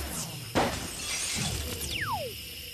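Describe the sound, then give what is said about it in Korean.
Glass windows shatter from a blast of hot steam: a sharp crash breaks into a spray of clinking, crackling shards, followed by a whistling tone that falls in pitch. “스팀 때문에 유리창이 모두 부서져 버렸다.”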